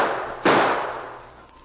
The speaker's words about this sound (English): Might as well get it over with. You ready to take the lead? Maybe. Shoot a couple of times more.